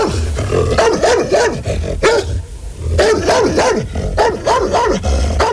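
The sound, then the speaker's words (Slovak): A dog barks fiercely, loud and aggressive, in a fast, continuous run of many harsh barks that eases briefly in the middle before picking up again. “Podišiel som k ním a zabrechal som, ako najstrašnejšie som vládal.”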